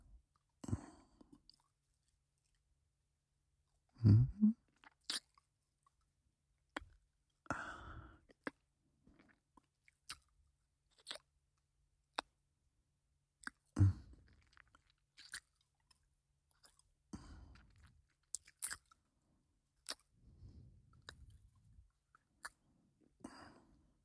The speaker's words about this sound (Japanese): 耳たぶも少し噛んでみようか。